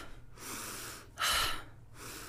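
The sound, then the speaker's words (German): Airy breathing during a relaxation exercise where the shoulders rise on the in-breath and drop as the breath is let out through the open mouth. Several breathy phases with short pauses are heard, and one louder, sharper exhale comes in the middle. “dass du mit der Einatmung die Schultern zu den Ohren nach oben nimmst und über den offenen Mund ausatmen, die Schultern fallen lässt.”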